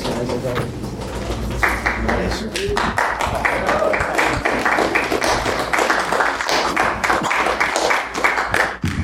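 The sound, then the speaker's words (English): A light, premature smattering of applause from the audience at the Joy Cinema and Pub, scattered claps running for several seconds beneath a man speaking. “Thank you for that premature smattering of applause that was happening.”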